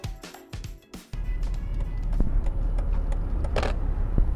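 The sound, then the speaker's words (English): A car driving toward downtown D.C., heard from inside as it arrives at the George Washington University campus: a few clicks and a light jangle, then a steady low engine and road rumble that holds to the end. “I'm here driving to downtown D.C. I'm just arriving to the George Washington University campus”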